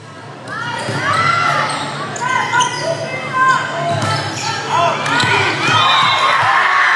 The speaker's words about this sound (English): That's the sound of the Parker School girls volleyball team after the win earlier this month that qualified them for the state championship tournament.